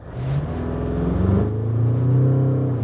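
A car accelerates hard from a standing launch at a drag strip, its traction control cutting in. The loud engine drone climbs steadily, dips sharply around the midpoint, then rises again with no talk over it.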